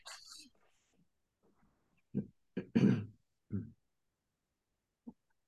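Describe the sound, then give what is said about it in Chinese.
Faint throat clearing during an online group practice session: a few soft, short, low grunting bursts spread across a quiet stretch, then a final small one. “我听到你清喉咙的声音。”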